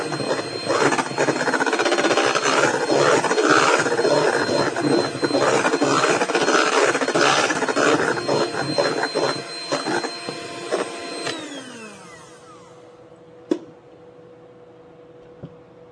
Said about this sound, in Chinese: 那当然你如果再不停的搅拌，最后它就会变成所谓的硬性发泡哈。好，那我们可以再打发一下下。